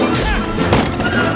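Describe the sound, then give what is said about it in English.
Sword fight blows and a kick in a duel between two cats, with swords and a knife: a loud, dense jumble of rapid whacks and crashing hits running through the whole short stretch. “Puss and the Masked Cat exchange blows. Puss kicks away the Masked Cat's sword.”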